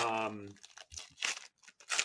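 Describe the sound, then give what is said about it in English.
Tearing open trading card booster packs: a short stretch of speech gives way to several crisp bursts of crinkling, ripping foil wrapper, separated by brief pauses. “All right, let's open. Cool. Let's open a couple. Let's open a couple packs.”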